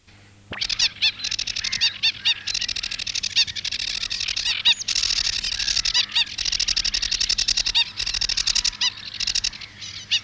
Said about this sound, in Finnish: Ruokokerttunen.